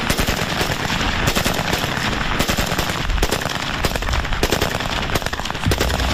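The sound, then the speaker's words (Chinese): Fully automatic gunfire from a Type 56 submachine gun: a dense, unbroken stream of sharp, rapid shots, loud and steady from start to finish. “火力输出方面，全自动的五六式冲锋枪优势显而易见”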